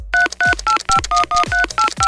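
Touch-tone keypad beeps as a mobile phone number beginning with 30 is dialed again, nine short, loud tones in a quick, even rhythm, each clipped and pitched slightly differently.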